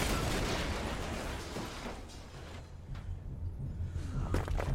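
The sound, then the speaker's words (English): A kinetic blast rips through a street in a film action scene, a broad, low roar that gradually thins out, followed by a few sharp cracks of debris near the end; the whole is quiet. “On landing, a kinetic blast destroys the street and sends the fighting brothers flying.”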